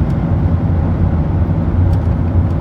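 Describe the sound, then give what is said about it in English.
A car driving on the road up to Loggerheads gives a steady, loud low rumble of engine and tyre noise that holds constant throughout, with no voices. “Collect my thoughts as I drive up to Loggerheads”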